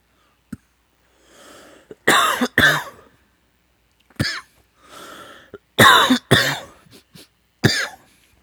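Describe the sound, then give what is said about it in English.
Harsh coughing after inhaling from a vape cartridge comes in loud, choking bursts of several coughs each, separated by raspy, wheezy inhales and some throat clearing. “And I always choke on cartridges. I don't know what it is about them. but they always fucking make me choke.”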